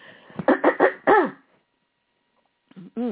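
Throat-clearing coughs from a person with a froggy throat: a quick run of short, voiced, rasping bursts, then a pause and a few more rough coughs.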